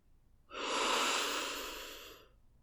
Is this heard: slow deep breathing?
yes